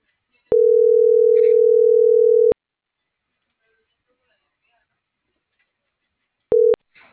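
Telephone tones after a dropped call: one steady mid-pitched beep lasting about two seconds, a long silence, then one short beep at the same pitch.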